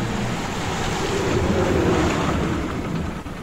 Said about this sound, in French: une violente tempête éclate. Pendant 7 jours, le pilote tente de maintenir le cap et lutte contre cette mer déchaînée.